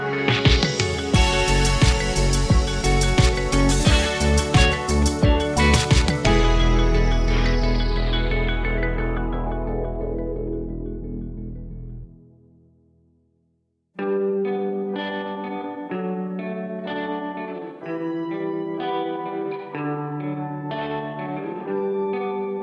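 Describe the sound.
Song with a dense, chorus-effected band sound that swells and then slowly fades into a brief silence. A sparser passage of bright, keyboard-like notes in a steady rhythm follows.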